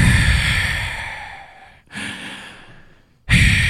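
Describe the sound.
A voice imitates loud snoring breath during sleep, with two long, harsh, breathy exhales and the start of a third, each cut off by a short silence.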